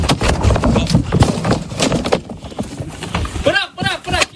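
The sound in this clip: A calf runs and leaps around inside a barn, its hooves clattering in uneven bursts on the floor while people shout over the commotion.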